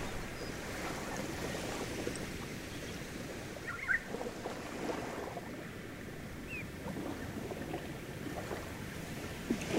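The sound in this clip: A motorboat steered along a coast hums faintly and steadily, its low engine rumble blended with washing water and wind, with no voices.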